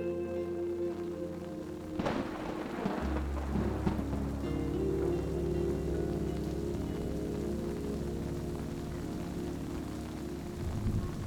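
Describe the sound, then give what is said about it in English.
Heavy rain pours onto bushy forest trees at night, a steady dense hiss throughout, with a deep low rumble of thunder rising early on and lingering beneath the downpour. “rain pours down onto the generous green bushy branches of the trees. The ground puddled over by the heavy downpour from the cloudy night sky.”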